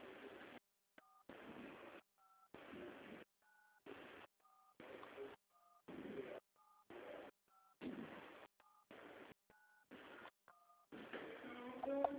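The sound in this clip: Keypad DTMF tones from entering the 11 digits of a Brazilian CPF ID on a Santander bank's automated phone line: a long series of short two-tone beeps, each sounding alone between bursts of noisy line sound.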